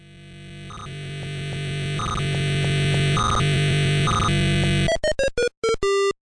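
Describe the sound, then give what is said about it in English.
Electronic sounds from the 1980 arcade video game Head On: a harsh, buzzing drone that swells steadily in loudness with repeated pulsing tones, then breaks into a string of short, choppy bleeps. “Now that is the sound of an arcade game from 1980 called Head On.”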